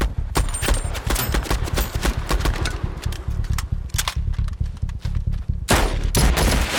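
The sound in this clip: Rapid, sustained covering gunfire, with dense volleys of many overlapping shots continuing throughout and a heavier, louder burst near the end.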